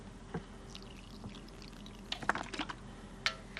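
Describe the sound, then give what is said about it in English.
Contact lens solution is poured into a contact lens case, with faint liquid trickles and a few small, soft drips and splashes that cluster toward the end. “In the bathroom, he fills a contact case with solution.”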